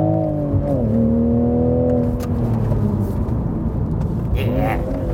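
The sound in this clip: A manual Toyota Supra being driven in England, its engine giving a steady, droning hum with a brief dip in pitch early on and a rise near the end, over constant road noise.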